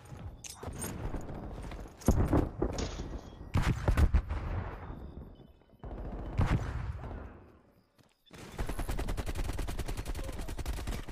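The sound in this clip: Video game shooter gunfire: a few separated bursts of sharp shots give way to a long stretch of rapid automatic fire near the end, loud and dense, with no clear talk over it.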